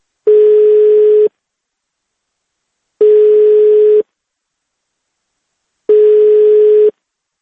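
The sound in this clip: Telephone ringback tone from an unanswered call to a number: three identical steady mid-pitched tones, each about a second long, separated by even silent gaps of roughly two seconds, loud and alone with no voices.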